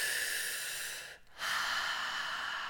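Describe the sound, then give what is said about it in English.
Slow, deep breathing during a guided breathwork session: a long airy breath fades to a brief pause, then a full, hissy breath swells back in. The breathing is steady and soft, with no talk. “Go ahead and come back into the breath.”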